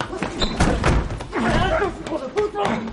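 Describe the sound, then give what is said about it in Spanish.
A door kicked shut at a toilet stall in a restroom, slamming hard, heard as a few heavy thuds and slams mixed with voices. “Jaime cierra la puerta de una patada quedando abierta una rendija. La puerta vuelve a cerrarse violentamente pero rebota dejando de nuevo una pequeña abertura.”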